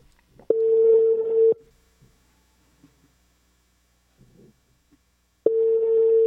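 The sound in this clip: Ringback tone of a telephone call ringing on the line: two steady, low buzzing tones about a second long each, separated by a long, almost silent gap.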